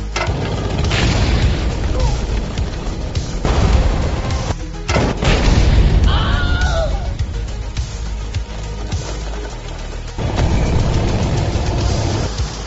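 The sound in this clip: Main gun of a tank firing a manually loaded round to break through a roadblock: a few heavy booms over a continuous low, rumbling roar, with voices talking in between.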